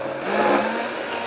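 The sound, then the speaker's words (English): An electric mixer whips pumpkin pie filling with egg whites as it speeds up, giving a loud, steady motor whir that swells slightly partway through. “Also, whipping like this, as I mentioned, activates those egg whites and gets that souffle texture that we're looking for. All right, let's go ahead and speed it up.”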